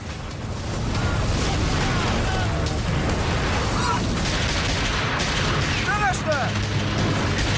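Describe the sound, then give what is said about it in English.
Sustained gunfire aimed at militia fighters rounding a bend in a corridor, a dense, loud, continuous barrage with voices shouting over it. “Sam fires at militia fighters as they round a bend in a corridor.”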